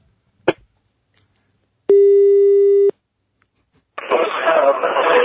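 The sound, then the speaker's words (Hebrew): Telephone ringing tone as a surprise call is dialed: a single click, then one steady, buzzing tone lasting about a second, followed by a burst of rushing, noisy sound. “בוא נחייג, שיחה בהפתעה.”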